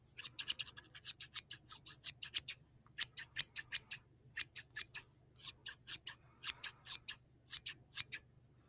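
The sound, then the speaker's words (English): Scissors snipping through hair during a haircut: many quick, crisp snips in short, evenly paced runs separated by brief pauses. The snips are fairly soft over a low, steady hum. “You really think you can cut your hair better than I am right now?”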